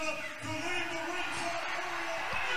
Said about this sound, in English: Listen to that crowd pop.